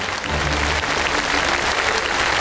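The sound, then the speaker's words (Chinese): An audience bursts into dense, continuous applause to welcome a renowned Peking opera artist on stage, the steady clapping staying loud and even throughout. “让我们掌声欢迎京剧名家朱世慧老师”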